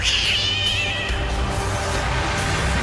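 A cat yowls in a long, strained, high-pitched wail that begins loud and piercing, then trails off into a rougher, noisier tone, heard alone.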